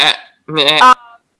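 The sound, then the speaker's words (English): A person imitates a sheep's bleat with a wavering, nasal voiced cry. A short vocal burst comes first, then a longer quavering bleat, loud and alone. “I kind of want to do like a sheep.”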